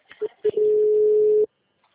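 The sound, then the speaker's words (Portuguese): Telephone tone on an outgoing call: two short beeps, then one long, steady mid-pitched tone of about a second, cut off into silence. “Ligando pra ele.”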